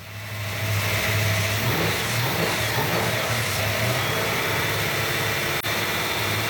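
Car engine that has just had extensive work done runs after starting on the first try. It gives a loud, steady, continuous rumble with no talk over it.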